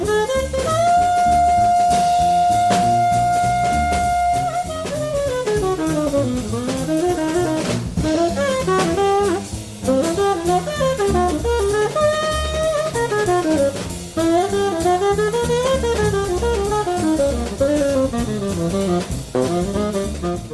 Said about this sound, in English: we're going to drop a saxophone solo on you.